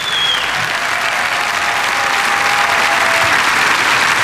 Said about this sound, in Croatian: molim vas veliki aplauz za maestro Miran Hauser, jazz orkestar HRT-a i gudači simfonijskog orkestra HRT-a